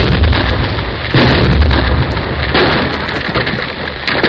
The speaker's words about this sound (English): A big blast will start the whole hill sliding down to my tunnel. It might bury our machinery under 10 feet of rock. That's your business. There she goes.